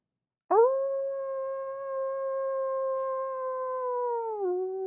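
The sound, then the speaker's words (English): A wolf howls in one long, clear note that holds steady for about four seconds, then slides down to a lower pitch at the end, loud and alone. “Probably because he's got wolves chasing him, like a giant wolf pack, a giant...”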